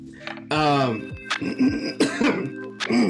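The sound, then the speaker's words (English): Throat clearing to get rid of mucus: a voiced rasping rumble followed by a few short, rough clearing bursts, loud and alone without talk. “I'm so sorry. I'm not sick. I'm just getting rid of the mucus.”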